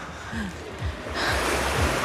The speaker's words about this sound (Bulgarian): Намираме се на южния плаж в Приморско. Тук температурите са наистина много високи и морето е кристално чисто.